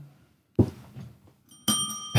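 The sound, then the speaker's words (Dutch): A small bell is pressed once and gives a bright, sustained ringing tone for about half a second. Dull thumps are heard before the ring and just after it. “Er wordt op het belletje gedrukt. Nee, even testen of je het doet.”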